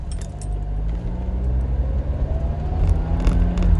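Car driving on the road, heard as a steady, loud low engine and road rumble with a faint rising tonal whine and no talking.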